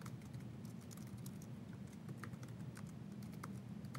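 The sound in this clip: Typing on a computer keyboard while entering code, with faint, scattered key clicks in an uneven patter over a steady low hum and no talk.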